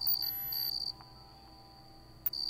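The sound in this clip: High, steady trill of a gorilla cricket, a bulky, strong-jawed cricket, briefly broken near the start, then falling silent for over a second before resuming, with a sharp click just before it returns.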